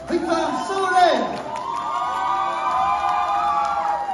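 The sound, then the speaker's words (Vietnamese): A crowd cheers and shouts to welcome the champion at a celebration, a sustained, excited roar of mixed voices with some high youthful shouts, steady in loudness throughout the four seconds. “Và chúng ta sẽ cùng dành một tràng vỗ tay để cùng chào đón quán quân”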